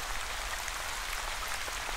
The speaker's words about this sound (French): Les gouttes de pluie continuent de tomber à leur rythme,